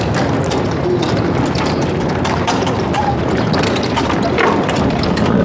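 Hooves of a horse-drawn carriage clip-clop in a dense, quick run of many clattering beats over a steady, noisy background.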